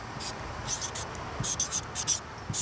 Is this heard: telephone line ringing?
no